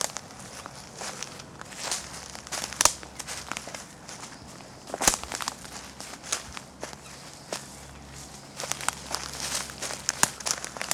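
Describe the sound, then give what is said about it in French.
Slow footsteps fall at an uneven pace, many soft, faint treads with light crinkling texture, some landing a little harder than others, and no voices. “Marcher, avancer d'un pas lent, s'arrêter.”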